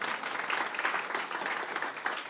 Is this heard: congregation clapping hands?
yes